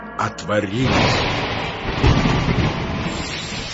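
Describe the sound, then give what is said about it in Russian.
Heavy rain with thunder, a loud continuous roaring wash of downpour with deep rumbling surges, and a voice briefly heard at the start. “И лился на землю дождь 40 дней и 40 ночей.”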